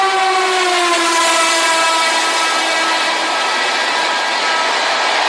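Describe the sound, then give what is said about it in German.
A train passing through: a loud, steady rushing rumble carries a horn-like tone that sinks slightly in pitch and holds throughout. “Wir können aber den Zug durchfahren lassen.”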